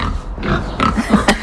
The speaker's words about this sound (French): Ils sont sympas, vos cochons, là. Ils sont sympas, ils sont curieux, ils vont venir nous faire un petit coucou, sans doute. Oui, le cochon est curieux.